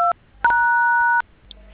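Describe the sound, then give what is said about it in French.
Telephone keypad tones as phone keys are pressed during a call: a short two-note beep, then a longer held tone, both fairly faint against a quiet line. “Arrêtez de manipuler les touches du téléphone, ça fait assez mal aux oreilles.”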